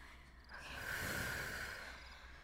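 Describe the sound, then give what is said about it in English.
A single slow breath swells gradually and fades again, soft and airy, with no talking over it. “Just breathe with me.”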